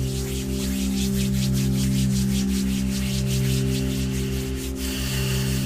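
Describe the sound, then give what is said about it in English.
Hands rubbed briskly together to make heat, many quick rasping strokes in a fast, even rhythm, heard over a sustained low tonal background with no talking. “And on your next inhale, I'd like you to rub your hands together.”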